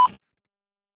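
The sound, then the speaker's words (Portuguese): A voicemail answering machine beep sounds as one short, high, steady tone that cuts off quickly into silence. “Alô? Por favor, deixe sua mensagem após o sinal.”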